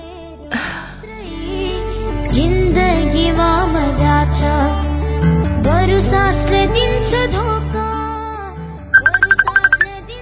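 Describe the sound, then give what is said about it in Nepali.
A mobile phone plays a melodic electronic ringtone, a bright tune of rising and falling notes at steady loudness, ending with a quick run of sharp repeated beeps. “A सोहनको phone.”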